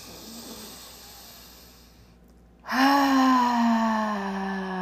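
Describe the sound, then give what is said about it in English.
A deep breath taken together during a guided meditation, released as a long, loud voiced sigh whose pitch slowly falls. “So let's do that right now. Let's take a nice deep breath together.”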